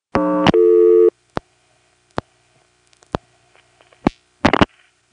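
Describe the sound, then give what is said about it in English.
Telephone trunk signalling as the register drops and the trunk is flashed after the 113 service code is dialed: two steady buzzing tones back to back, followed by a few sharp, separate clicks. “That was the Rego dropping and the service code trunk flashing.”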